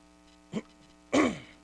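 Throat clearing: a short rasp followed by a longer, louder, gravelly clearing, with no talking, over a faint steady hum.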